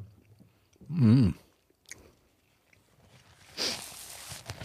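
Chewing and biting on a hot dog with unusual toppings. A brief hummed murmur is followed by soft, faint mouth sounds and light crunching.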